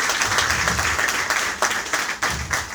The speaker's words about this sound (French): Est-ce qu'on peut acclamer pour ça, s'il vous plaît?